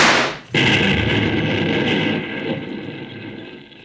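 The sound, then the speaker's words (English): A dynamite explosion, set off by a gunshot, destroys an office. After a brief crack it erupts as a loud, sudden, full-bodied blast, then settles into a long rumble that slowly fades. “The dynamite blew it to smithereens. And it was by your own hand, Bolivar. You fired the gunshot that set off that explosion.”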